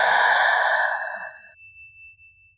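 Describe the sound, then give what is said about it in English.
A deep breath is released through the mouth during a guided breathing exercise, a long, loud, airy exhale that fades out over about a second and a half and leaves near silence. “Deeply inhale through the nose. Exhale through the mouth.”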